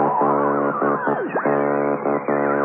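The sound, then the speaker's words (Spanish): Electronic sci-fi sound effect of a flying saucer slowing as it nears a space base: a loud, buzzy pulsing hum made of repeated bursts, broken midway by a swooping downward-then-upward pitch glide. “El platillo volador aminoró la marcha al aproximarse a la base. Los astronautas cerraron los controles de los motores y el platillo volador quedó inmóvil en el espacio”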